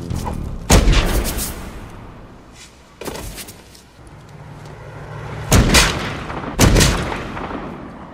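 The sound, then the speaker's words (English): Four sharp gunshot bangs ring out at irregular intervals, each a loud, broad crack with a short decaying tail, over a steady background hiss, with no voices. “I've just shot somebody. I did it on purpose.”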